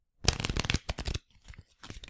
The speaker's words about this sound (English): Let me shuffle real quick.